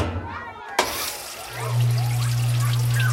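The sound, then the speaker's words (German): A washing machine starting a wash cycle with water running in: after a click near the start, a steady low hum and running water rise and continue evenly to the end. “So, eine Portion Waschpulver ins Fach und los, Wilma Waschmaschine.”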